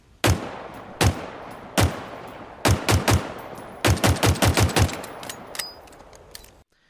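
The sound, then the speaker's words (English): Gunshots from the Mark 50 Sidekick pistol in a video game: three well-spaced single shots, then a quick triple burst and a faster run of sharp cracks, each loud with a short decay, before the sound cuts off abruptly. “we're going to start off with everybody's favorite because if you don't like this weapon, I don't trust you the Mark 50 Sidekick.”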